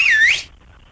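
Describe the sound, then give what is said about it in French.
A man whistles a single short, loud, high note that dips in pitch and rises again before it cuts off into near silence. “Ah, il siffle aussi.”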